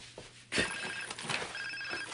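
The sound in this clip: A mobile phone rings with a bright, warbling electronic tone in two short bursts, fairly faint and with no voices.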